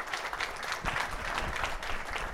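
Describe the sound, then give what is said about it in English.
An audience gives a round of applause after a panel discussion, a continuous patter of many hands clapping at moderate volume that stays fairly even from start to finish. “Let's give him a big round of applause.”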